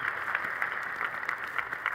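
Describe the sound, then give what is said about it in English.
Applause at the Colorado governor's inauguration ball in Denver: an even patter of many hands clapping, fairly faint and continuous throughout. “You can hear him. Hear the applause.”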